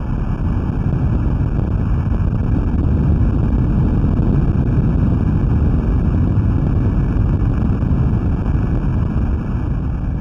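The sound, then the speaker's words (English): An underwater recording of the 2011 earthquake off the coast of Japan, picked up by a Navy listening station. A deep, continuous rumbling roar holds at a steady, loud level for about ten seconds without a break. “That's the sound of the earthquake that erupted off the coast of Japan in 2011. You're listening to an underwater recording”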